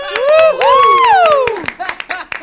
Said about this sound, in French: Vous pouvez applaudir les filles.